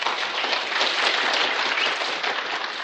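Dense applause welcomes a guest, a former NFL scout, into a studio show. The clapping is loud, even and continuous throughout, with no voices over it.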